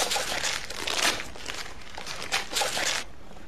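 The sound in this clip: Gift wrapping is torn open around a CD in a few crisp bursts of crinkling and ripping paper, separated by brief quieter pauses.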